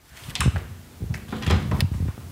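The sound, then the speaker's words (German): A door is opened carefully, giving a few soft clunks and rubbing handling noises spread over a couple of seconds, with no voices. “Vorsichtig öffnet die Mutter die Tür zu Linas Zimmer”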